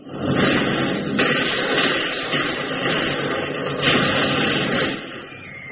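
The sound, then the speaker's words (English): Artillery shells explode in a war drama battle scene, a dense, continuous roar of blasts with a few stronger bursts standing out, and no voices. “Keep moving! You gonna let a few lousy shells scare you?”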